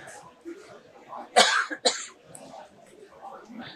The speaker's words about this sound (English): excuse me, boys, got a little tick in my throat.